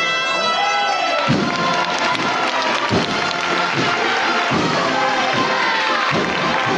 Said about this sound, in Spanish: despiertan los aplausos de los aquí congregados tras romper de frente.